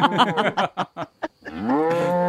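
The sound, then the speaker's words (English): A person imitating a cow's moo: a few short choppy bursts, then one long, low, sustained lowing tone that rises slightly in pitch near the end. “One says to the other cow, moo.”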